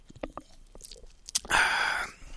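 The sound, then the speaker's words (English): A sip of a drink: a few small mouth clicks, then a sustained noisy sip lasting about half a second. “So, you know, I'll take a sip here”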